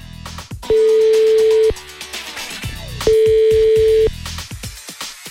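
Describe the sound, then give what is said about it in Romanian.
Two long telephone ringback tones sound as radio hosts call a listener. Each is a steady mid-pitched tone of about a second, separated by a pause of roughly two seconds. “Iar noi chiar acum o sunăm pe Cristina din Bragadiru.”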